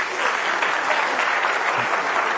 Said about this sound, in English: Give my lads a really big clap.